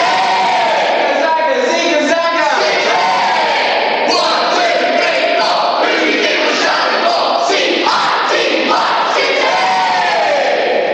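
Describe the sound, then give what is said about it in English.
A football crowd in the stands chanting "Zigger Zagger", loud massed male voices in a steady, repeated call-and-response rhythm, sustained without break and slightly rough and distorted. “It sounds a bit like it was recorded at the back of one of the stands in my local football ground, don't you think? Zigger Zagger! Zigger Zagger!”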